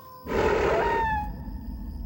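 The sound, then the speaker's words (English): Coyote howling in a film scene: a single drawn-out howl with a breathy, rough onset and a clear tone that slowly sinks and fades, over a steady low rumble. “Is that a coyote? Yep. Man, he better keep quiet.”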